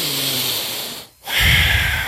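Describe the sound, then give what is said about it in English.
A deliberate breathing technique, the Wujiai breath used when exhausted, heard as two long, loud hissing breaths separated by a brief pause, the second lower and rougher. “I'll start doing the Wujiai breath.”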